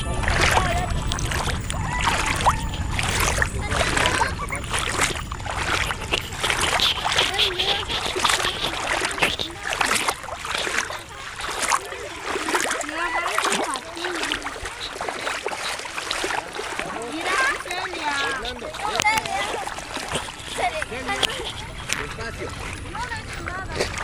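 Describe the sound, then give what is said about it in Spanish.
Water splashing at a lagoon in continuous, rhythmic splashes and sloshes that sound like paddling, with people talking throughout. “estoy grabando el sonido del agua.”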